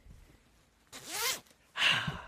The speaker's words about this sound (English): World feels better behind the cardigan. That's if you've got a zipper cardigan.